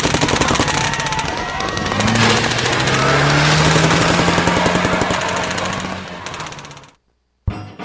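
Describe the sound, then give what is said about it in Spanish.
Rapid automatic gunfire rattles during an armed attack on village election officials, a dense, continuous stream of sharp shots under a steady droning tone. It cuts off abruptly into silence, then one short final burst follows. “¡Allí están! ¡Comiencen a disparar!”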